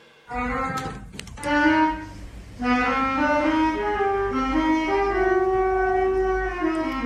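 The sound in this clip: A beginner practices a film theme on saxophone, playing held, slightly wavering notes that step up and down in a slow melody after a few short knocks near the start.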